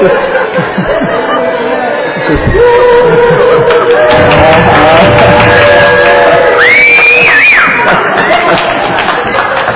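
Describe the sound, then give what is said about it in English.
An audience cheering section whooping, shouting and cheering loudly, mixed with busy crowd chatter and overlapping voices throughout. “That's very sweet. Oh, that's sweet. Thank you. That's my cheering section.”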